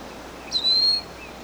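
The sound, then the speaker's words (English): A single high, thin whistled call from a wild bird overhead lasts about half a second, standing out faintly above a steady, quiet background hiss. “We have two wild birds over the top.”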